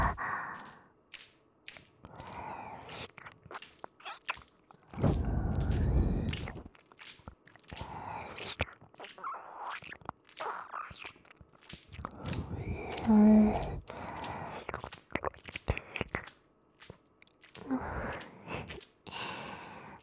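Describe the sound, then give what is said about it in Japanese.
Wet ASMR licking and mouth noises close against the right ear, an irregular series of smacking, squishing bursts with soft breaths in between and a louder cluster near the middle. “じゃあ次は右耳ペロペロするよ。”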